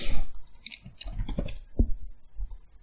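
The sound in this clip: Typing on a computer keyboard, with fast, irregular clicking keystrokes running steadily throughout at a moderate level, with no talking.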